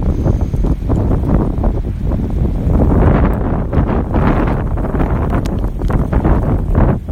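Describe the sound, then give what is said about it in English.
Strong wind blows hard and steadily, buffeting the microphone with a loud, dense roar that swells in gusts, with no voices. “And breathe in that wind. Oh my goodness.”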